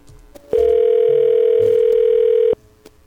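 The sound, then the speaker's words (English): A telephone dial tone after a cell phone call hung up or cut off. A loud, steady single-pitch tone sounds for about two seconds and stops abruptly, with faint low noise before and after. “Oh, he either hung up or cut off.”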